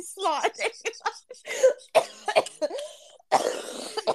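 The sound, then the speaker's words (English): A person coughing, a few short, rough bursts mixed with brief voiced sounds, ending in a longer, harsher cough. “you made me cough”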